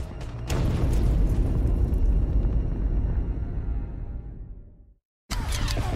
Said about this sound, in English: The Japanese got down, and we got down, and then the grenade went off.